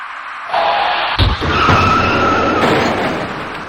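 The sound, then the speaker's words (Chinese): Three passenger cars colliding while driving: tires skid and squeal loudly, broken by a sharp low impact thump, and the high squealing tones then carry on and slowly fade. “转眼过后，三辆小客车在行驶当中发生了相撞事故。”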